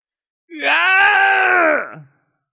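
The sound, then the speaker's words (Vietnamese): A man's single anguished scream of pain, strained and tonal. It rises at the start, holds loud and steady for about a second and a half, then drops away abruptly. “Miệng của hắn thét lên một tiếng thống khổ”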